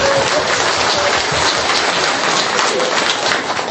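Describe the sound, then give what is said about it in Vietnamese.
Loud, dense applause from a group at a Buddhist temple, cheering a 14-year-old; many hands clap in a steady, hissing patter that stays level throughout. “Vỗ tay đi.”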